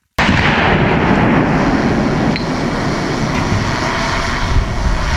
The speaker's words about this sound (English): Paladin howitzers are used to eliminate the enemy's heavy equipment that poses the most danger to Ukrainian infantrymen, like tanks.